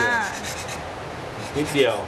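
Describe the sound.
Hand sanding of a softwood piece, worked only at a corner, making short, gritty rasping strokes that rise and fall in loudness.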